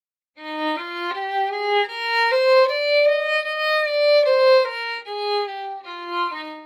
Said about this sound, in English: So let's hear that one octave scale with slurs of two.